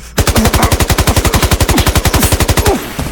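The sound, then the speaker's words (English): Rapid automatic gunfire from a video game: one loud, continuous burst of many evenly spaced shots lasting over two seconds, with no voices, then a short fading tail. “I don't think I missed a single time, Alfred. Like, all the bullets hit him. That's gotta be like a record or something. Holy shit, I'm a good shot.”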